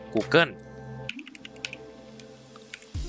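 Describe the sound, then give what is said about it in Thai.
Keys tap on a computer keyboard as someone types into a search box: a few scattered, light keystrokes after a brief bit of talking at the start. “กดขยายตรงแท็บ Search ด้านบนนะครับพิมพ์คำว่า”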